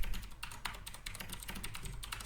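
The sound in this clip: Loud, fast typing on a computer keyboard, a dense rattling stream of sharp clacks like a typewriter, with no talk.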